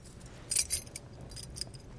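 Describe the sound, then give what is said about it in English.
A bunch of keys, including a car key, jangles in a few short metallic bursts, loudest in the first second and followed by a faint clink, against quiet background. “I have keys. Here's a key to an automobile. Right here.”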